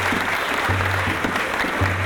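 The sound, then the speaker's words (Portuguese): Audience applause for a cavaquinho player at a live performance in São Paulo: dense, steady clapping throughout, with a low, continuous hum beneath it. “Vamos aplaudir aqui, minha gente, ó.”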